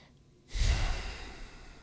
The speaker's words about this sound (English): Oh, that was nice. A nice big breath.